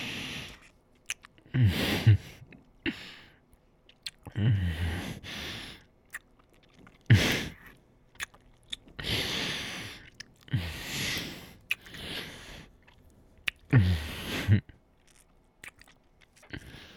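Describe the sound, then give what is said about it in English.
Wet kissing sounds: several bursts of smacking, breathy mouth noises separated by short quiet pauses, moderately soft overall. “In one of those cute ways that by the end of it, we're making out. Kissing until we can't breathe anymore. Don't mind if I do.”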